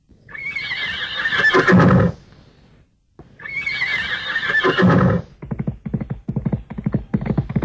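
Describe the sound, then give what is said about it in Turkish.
A horse neighs twice in loud, whinnying bursts as a prince mounts and rides off, followed by a rapid, steady run of hoofbeats clip-clopping to the end. “Atına atlamış çıkmış yola. Hiç bakmadan sağa sola sürmüş atını.”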